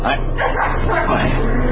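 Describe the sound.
Excited dog barking and yipping, mixed with whimpering, fills the whole clip at a loud, steady level, with a voice heard underneath.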